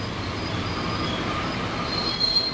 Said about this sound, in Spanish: El tren se está parando.